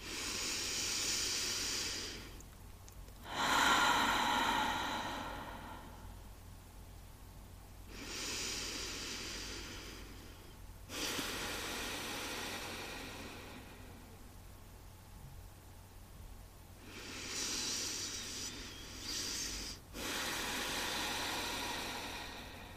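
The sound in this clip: Slow, deep breathing during a guided belly-breathing relaxation exercise, with long airy exhales and inhales alternating in a steady, unhurried rhythm, soft and hissing, with no talk over it.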